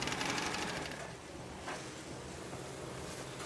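Fabric being sewn at a workstation, a steady mechanical whirring that starts louder and then settles into an even, continuous hum with no talk.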